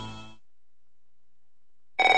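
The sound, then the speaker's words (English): A telephone rings in a debt-relief advertisement: a short tonal sound cuts off into silence, then a bright electronic ring bursts in near the end. “Don't answer it. If fear strikes your heart when the phone rings, knowing it may be another bill collector”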